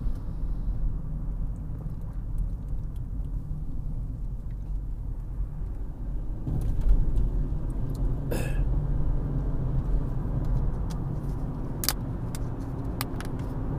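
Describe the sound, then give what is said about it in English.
A car driving down Minnesota Drive in Anchorage, with a steady low road rumble and engine drone throughout. A few faint clicks and ticks sit over the continuous noise. “All right, we're swooping down on Minnesota Drive here in Anchorage.”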